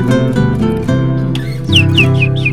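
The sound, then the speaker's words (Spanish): Canary chirps in a song trill over guitar music. Quick, high whistles with rising and falling pitch enter partway through, above steady, sustained chords. “Ah, tenemos el canario.”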